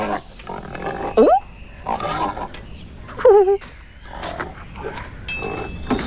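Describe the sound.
Big pigs grunt in a farmyard with hens and roosters. Rough, irregular grunts come over a steady background, broken by two sharp, rising squeals that stand out loudly.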